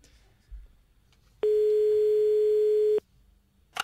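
A telephone ringback tone plays while a call is being placed: one steady, mid-pitched tone held for about a second and a half in otherwise quiet surroundings, then a brief click.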